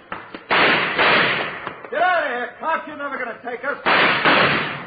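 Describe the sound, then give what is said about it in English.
Gunfire rings out in a radio drama shootout: two loud, rough bursts of shots, one early and one near the end, with a man's voice shouting between them. “Hold it up. Don't shoot anymore. I give up.”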